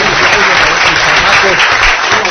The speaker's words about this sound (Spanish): Unos aplausos, por favor.